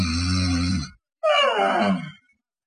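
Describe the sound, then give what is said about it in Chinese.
A voice imitates snoring with a hooked catch: two loud, drawn-out throaty bursts separated by a brief pause, the first low and steady, the second higher and wavering. “那边还有打呼噜带吹气的，那边还有一位啊，打呼噜带倒钩的。”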